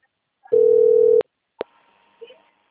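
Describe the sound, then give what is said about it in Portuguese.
A telephone ringing tone while an outgoing call connects: one steady, loud, buzzing tone lasting under a second, cut off sharply, then a crisp click and faint line noise. “Ah, Rose tá chamando.”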